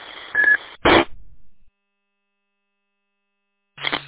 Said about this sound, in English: You're coming here 5x9, but there's a beep on your end over there. I don't know what that beep.